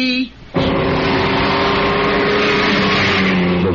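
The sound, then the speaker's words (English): Alfa Romeo car engine roaring loudly and steadily after a brief quiet moment at the start, a continuous, dense mechanical drone with sustained tonal hums running through it. “Of an Alfa Romeo, the name that became legend in racing.”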